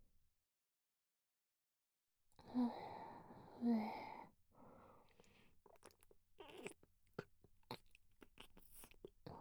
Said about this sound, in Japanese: 次は、ディープキスをしてください。